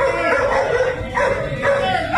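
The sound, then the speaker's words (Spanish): A dog yips and whimpers during a police confrontation: high, strained cries run continuously over a dense, noisy background. “Ahí aparece el perro. El perrito, ¡ay, Dios mío!”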